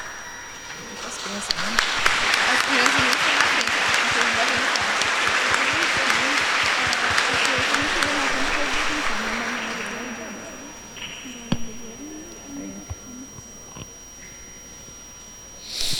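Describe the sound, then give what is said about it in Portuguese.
A church audience gives a big round of applause. The clapping swells quickly to a full, dense level, holds for several seconds, then fades away. Quieter sounds and voices follow. “Nós vamos saudar com a grande salva de palmas.”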